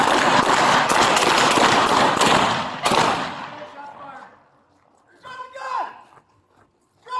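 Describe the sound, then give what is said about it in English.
Police video of a fatal shooting of an armed suspect at an apartment complex catches several sharp gunshots inside a dense, loud burst of noise. The din fades after a final crack, and shouted voices follow. “Colorado Springs Police, they released a video of a fatal shooting at an apartment complex of an armed suspect.”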